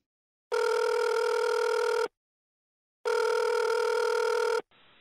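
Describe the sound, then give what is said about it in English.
A telephone rings for an incoming relay call: two long, loud electronic ring bursts, each about one and a half seconds, separated by a second of silence. “A person who may be deaf or hard of hearing is calling through the California Relay”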